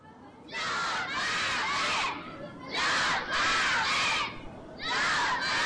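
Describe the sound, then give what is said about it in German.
A school class of children shouts loudly together on the day they leave for a class trip, rising in a few sustained bursts of high, excited voices separated by short lulls. “Während die Klasse laut ruft”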